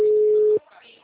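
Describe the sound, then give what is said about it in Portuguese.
A single steady telephone tone after a dropped call, held for about half a second and then cut off, leaving faint line noise. “caiu a ligação”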